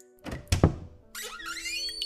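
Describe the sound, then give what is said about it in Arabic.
Rusty door hinges creak in a high, wavering, drawn-out squeal that follows a couple of dull thumps. “صوت مفصلات الباب المصدية.”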